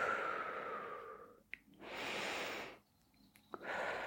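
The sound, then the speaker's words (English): Faint, slow breathing in through the nose and out through the mouth: soft, airy whooshes of breath separated by brief quiet pauses, with a small snort-like catch between breaths. “So from there, inhale through your nose, out through your mouth.”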